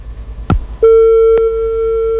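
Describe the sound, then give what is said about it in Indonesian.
A telephone disconnect tone on a dropped call: a short click, then a steady, unbroken electronic tone that holds one pitch to the end, with another faint click partway through. “Wah, terputus sambungan teleponnya.”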